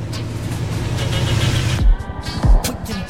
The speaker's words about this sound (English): They pull out of the parking garage and away from the precinct.